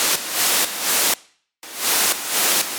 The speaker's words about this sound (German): Ich nehme diesen Bereich und kann jetzt einfach hier diesen Bereich in der Lautstärke runterziehen und jetzt haben wir wirklich diesen Effekt, dass da der Sound abreißt.